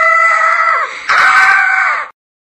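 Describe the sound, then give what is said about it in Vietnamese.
A woman screams wildly from a window at night, two long, loud, piercing shrieks back to back with only a brief dip between them, then an abrupt stop. “Rồi có tiếng đàn bà hét như điên phá tan sự yên tĩnh của đêm tối.”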